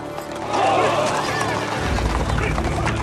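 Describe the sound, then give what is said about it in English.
Hundreds of samurai horses gallop past at full speed, hooves pounding in a dense, loud clatter that deepens into a heavy rumble, with voices mixed in. “As hooves pound up dust,”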